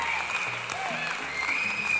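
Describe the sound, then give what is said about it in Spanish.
Studio audience applause in a radio programme studio: a steady wash of clapping that lasts the whole moment, with voices talking over it. “Aplauso bajito para ustedes, ¿por qué? Está bajito, apláudase, apláudase, señor.”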